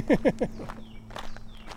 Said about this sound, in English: And we keep walking.